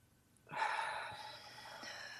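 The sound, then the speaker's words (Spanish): A deep breath drawn in during a breathing exercise: a soft, airy inhale that starts abruptly and continues steadily for well over a second, quiet throughout. “Respiro, la sostengo”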